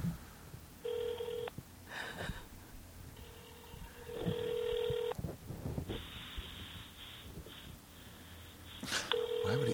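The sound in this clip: Telephone tones from a call on speakerphone: steady electronic beeps come in several separate stretches with gaps between them, faint over a low background hiss.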